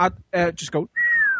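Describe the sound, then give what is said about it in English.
A voice imitates a slide whistle: after brief talk comes a sustained whistled tone that glides slowly downward for about half a second. “All you'd need to do is go to, a music shop. And buy a slide whistle and then just go,”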